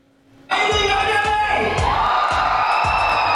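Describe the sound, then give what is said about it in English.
A crowd of about 40,000 cheers on the beach at Beats on the Beach in Abu Dhabi, a Grand Prix concert event. The loud, sustained roar bursts in after a short quiet start, with regular low thumps beneath it. “This is me hosting an event on stage at Beats on the Beach in Abu Dhabi, which is associated with the Grand Prix. Get some huge artists and an audience, in this case about 40,000 people on the beach.”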